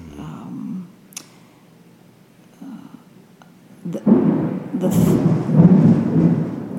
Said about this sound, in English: there's the thunder.